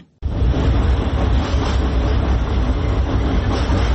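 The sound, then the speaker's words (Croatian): Tram rumbling across an old bridge over the Sava river in a capital city: a loud, steady, heavy rolling rumble that starts abruptly after a brief quiet moment and continues without voices. “Huk tramvaja preko mosta na Savi, jednog od simbola glavnog grada, prema najavama vlasti, broji svoje posljednje mjesece.”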